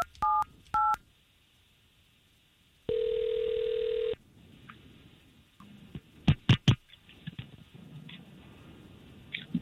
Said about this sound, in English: all we're going to do here is we're going to try to call this young lady and see if we can't talk to her first